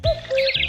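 A common cuckoo calls with two hollow, clear tones, the second lower and longer than the first. Thin, high chirps from other birds sound alongside.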